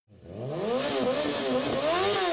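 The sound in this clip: Motorcycle engine revving hard, a loud sustained growl whose pitch climbs and wavers as the throttle is worked, heard alone without any voices.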